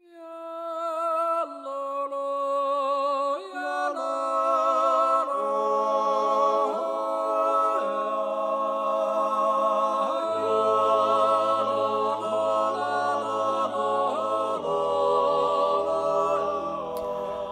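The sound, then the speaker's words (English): Polyphonic Swiss yodeling: several voices layered in harmony, leaping between high and low notes in sustained phrases, with a deep drone joining partway through. “That's the sound of yodeling. A specific kind of yodeling, actually. If you recognize that sound, by the way, it's from the beginning of Grand Budapest Hotel.”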